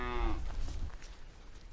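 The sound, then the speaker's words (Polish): A small Jersey cow gives one loud, low, drawn-out moo that fades within about half a second, leaving faint rustling background noise with no voices. “Mała krówka.”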